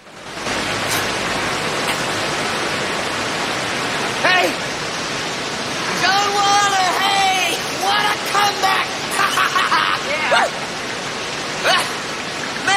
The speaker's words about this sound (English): Meanwhile, Joan climbs onto a rock on the other, and the rapids rage on between them.